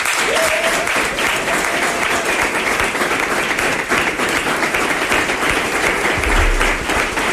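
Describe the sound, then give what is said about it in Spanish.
Sustained audience applause at a 2026 Aragón election rally, dense steady clapping from a large crowd throughout, loud and even with a brief low thump near the end. “Un fuerte aplauso, por favor, para Joaquín Palacín.”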